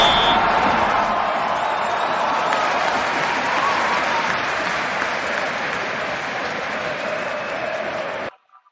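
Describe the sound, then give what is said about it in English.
Liverpool fans applaud and cheer in a dense, steady roar of clapping, celebrating the Carabao Cup. The sound holds at a constant level for several seconds, then cuts off abruptly. “As we can see, we have the Liverpool fans already. Celebrating the Carabo Cup that they didn't care about for so long,”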